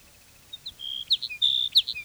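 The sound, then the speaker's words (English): Sage sparrow song, a faint run of high, thin chirps and short trilled notes that grows quicker and louder toward the end, with no talk. “Sage Sparrow number two.”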